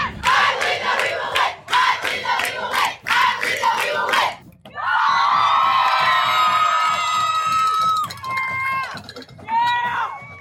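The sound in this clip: Student supporters at a Muskego Warriors varsity football game chant loudly in unison, a rhythmic call repeated three times. It gives way to a sustained, high, cheering roar with whoops from the crowd.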